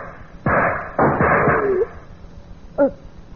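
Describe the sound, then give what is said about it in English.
Gunshots in a radio drama: two loud, sharp bangs about half a second apart, each trailing into a long rumbling tail, then quiet. “You want a second bullet? Okay, then hear it.”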